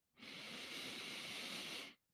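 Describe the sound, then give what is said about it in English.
A slow, deep breath drawn in during a guided relaxation exercise, a soft, steady airy hiss lasting nearly two seconds, heard alone. “I'm just going to take a nice, slow, deep breath.”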